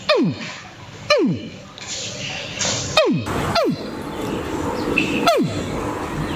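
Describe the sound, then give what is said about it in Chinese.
Five short, high chirps, each diving steeply downward in pitch and spaced unevenly, come from a person imitating a baby crocodile calling for its mother, over a low, steady background noise. “鳄鱼小鳄鱼的时候是这样叫的。 鳄鱼找妈妈的声音。”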